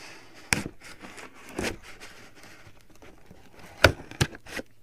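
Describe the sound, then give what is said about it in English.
Quiet ASMR-style crinkling and tearing of a package being unboxed, with soft rustling broken by a few sharp crackles and snaps of packaging material. “I'm gonna do like ASMR unboxing.”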